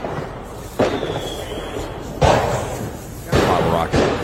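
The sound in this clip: Bottle rocket pops set off amid a live crowd at a show in Fort Worth: about four sharp bangs spread over a few seconds, above a steady murmur of voices.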